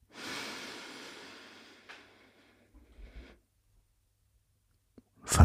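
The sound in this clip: A long inhale during a guided meditation, a soft, airy breath that starts strong and fades slowly, followed by near silence, a few faint clicks and a brief louder rustle at the end.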